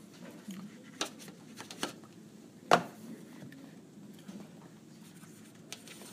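Arabic letters being written by hand: faint scratching strokes and soft taps come intermittently, with one sharper, louder mark in the middle.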